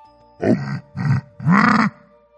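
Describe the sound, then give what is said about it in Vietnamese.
A creature's low, discontented growl, delivered as three rough grunting bursts with short gaps between them. The last burst is the longest, and there is no talk. “Lục Túc Đao Trì bất mãn gầm khẽ một tiếng”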